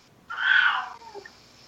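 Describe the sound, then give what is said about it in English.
A cat meows once, a single drawn-out, mid-pitched call that swells and then fades, heard alone against a quiet background. “That was a cat.”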